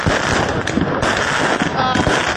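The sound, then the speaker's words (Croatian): Firecrackers and other fireworks exploding on a cold, dry New Year's night: many sharp cracks and pops over a dense, continuous din of bangs that never lets up. “uprkos upozorenjima policije, odjekivali su međutim i pucnji petardi i drugih pirotehničkih sredstava.”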